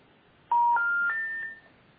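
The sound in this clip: Telephone number being dialled: about four short keypad tones in quick succession, stepping upward in pitch, clear and alone against near silence.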